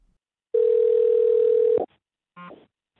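Telephone ringback tone as a call is placed to someone in France: one long, steady, mid-pitched tone lasting just over a second, then silence broken by a short, faint blip.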